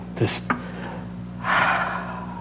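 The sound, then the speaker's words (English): A deep breath: a couple of short sharp inhales, then a longer, louder, airy breath that is held steady to the end. “If you'll just humor me for a couple minutes here, let's just take a deep breath.”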